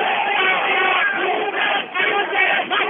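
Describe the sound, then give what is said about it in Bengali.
A large crowd in the streets of Dhaka chants a victory slogan together after Bangladesh beat England to reach the Cricket World Cup quarterfinals. The sound is a dense, continuous roar of many voices with a few brief dips. “খেলা শেষ হওয়ার সাথে সাথেই তরুণ যুব পুরো সবাই একযোগে দিতে থাকেন সেই স্বপ্নের স্লোগান, বাংলাদেশ বাংলাদেশ।”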